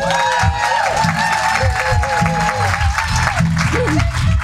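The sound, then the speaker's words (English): Applause from an audience giving speakers a warm welcome at a Greenbelt gathering: continuous loud clapping with voices and cheers rising through it. “Would you, Greenbelters, give them a very, very warm welcome?”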